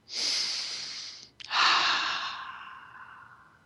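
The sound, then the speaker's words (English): Slow, deep breathing: one long, airy inhale, a brief pause, then a longer, breathy exhale that fades gradually, heard alone without talk. “Let's take a couple of deep breaths first.”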